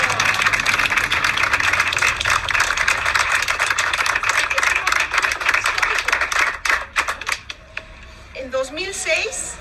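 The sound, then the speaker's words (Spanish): Applause at the opening of an artisan and cultural workshop: dense, crackling clapping for several seconds that thins into scattered claps and stops, then a voice speaks. “Vamos a darles un aplauso. ¡Bravo!”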